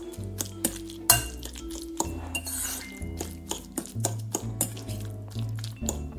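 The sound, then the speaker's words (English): Light clinking of a utensil against a bowl as canned tuna is mixed with lemon juice and pepper: many short, bright clinks come at an uneven rhythm, with steady tonal sounds underneath. “I'm gonna squeeze in a tiny bit more lemon. And you know what? While we're at it, I'm gonna add a little bit of pepper too. Why not? I'm gonna give this another mix.”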